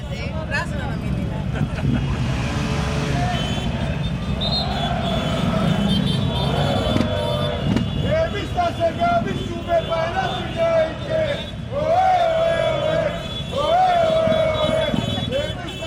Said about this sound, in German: Der Paok-Mannschaftsbus fährt ins Tumba-Stadion im Herzen von Thessaloniki ein und die Fans sorgen bereits für Stimmung.